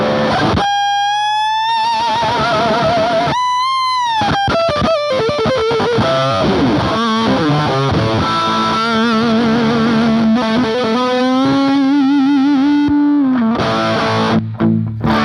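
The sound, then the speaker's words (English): Electric guitar played through a Bogner LaGrange overdrive pedal in a Hendrix-style lead: loud, distorted and sustained, with wide vibrato, bends, choppy bursts and fast runs before a long held note. “I like to run that with this Bogner LaGrange pedal. God, that thing sounds using great. As an overdrive.”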